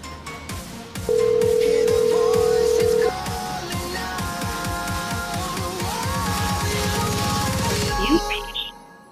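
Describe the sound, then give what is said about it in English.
Ringback tone from an outgoing telephone call: one long, steady, mid-pitched ring that holds for about two seconds over a busy, rhythmic background. “Jeff, pick up the phone, little bitch. Pick up the phone. Come on.”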